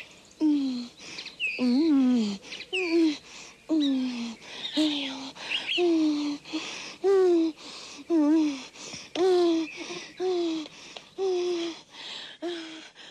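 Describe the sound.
A comic vocal composition about magpies, quails and a lark: many short, rhythmic, pitched calls that rise and fall, as a voice imitates chirping and warbling birds.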